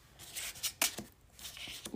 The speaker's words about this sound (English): That is who created this deck, and I will be pulling the first card.